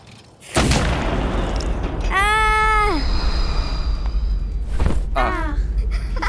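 A cannon booms as it shoots a cockchafer beetle out of a moon cannon. One deep, loud blast strikes early and leaves a sustained roar, with brief warbling tones rising and falling later on.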